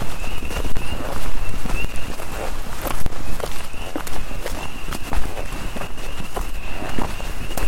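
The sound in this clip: Footsteps walk through a forest near old camp ruins, with many steady steps on the ground. A constant high peeping chorus runs underneath, and no voices are heard.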